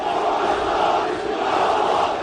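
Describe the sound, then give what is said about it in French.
Several hundred Turkish fans chanting for Mohamed Salah as he arrives at Istanbul Atatürk airport, a loud, continuous roar of massed voices that stays steady throughout. “Ils étaient donc plusieurs centaines à chanter à la gloire de Mohamed Salah quand le pharaon a fait son apparition à l'aéroport Atatürk d'Istanbul, maillot de Trabzonspor sur les épaules.”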